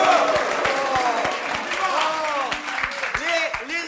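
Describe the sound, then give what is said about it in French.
Scattered applause in a parliamentary chamber: irregular, sharp claps sound beneath loud, overlapping male voices and general crowd noise. “vous applaudissent, monsieur Reynac.”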